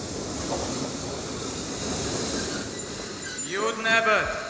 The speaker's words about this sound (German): Der gerade eingefahrene Zug fährt weiter nach Plymouth.